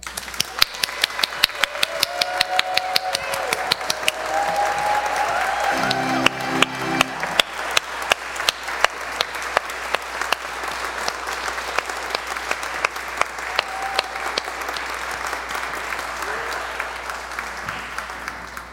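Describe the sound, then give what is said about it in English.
An audience applauds to welcome a speaker at First Emmanuel, with many hands clapping in a dense, sustained stream of sharp claps that stays loud for nearly twenty seconds. “Please put your hands together and give a warm First Emmanuel welcome”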